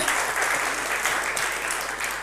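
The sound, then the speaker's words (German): Audience applause: dense, steady clapping that stays loud for the whole stretch, with no voices standing out. “So lass uns einen Beifall geben.”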